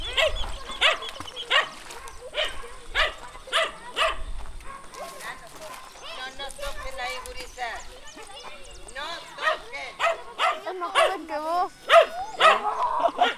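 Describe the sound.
Dogs bark repeatedly in a video game, a long run of sharp, loud yaps and barks with people talking excitedly over them.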